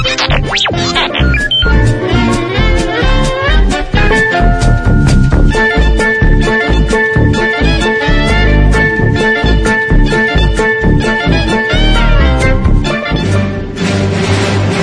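Bouncy swing-style band music from the Mos Eisley cantina scene in Star Wars: A New Hope plays loudly and steadily: bright, bell-like staccato melody notes over a quick, even bass pulse, with no voices.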